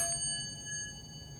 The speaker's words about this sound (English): And you can make some great noises with hard drives. Platters. And magnets.